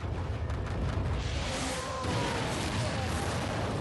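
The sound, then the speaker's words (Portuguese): An explosion in a video game, a continuous, dense roar of rumbling blast noise that stays loud and steady throughout. “Cabum. Chablau. Bong. Gente, eu nem vi como tudo explodiu.”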